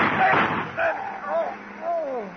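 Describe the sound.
A gunshot in an old radio drama hits as a short, broad blast at the very start, followed by a man's voice shouting urgently over several bursts.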